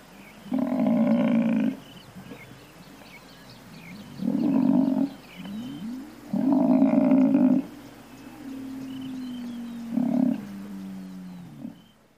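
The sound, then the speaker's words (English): Low, drawn-out bellows from an African buffalo on the savanna come as several long, hoarse, harmonic grunts separated by quieter pauses, one fainter tone stretching between them, over a soft steady background with no talk. “on a walking safari, the rule is, if birds suddenly take flight or call out loudly, you should definitely stop and listen very carefully. And if you keep your ears open, you might even hear the buffalo itself.”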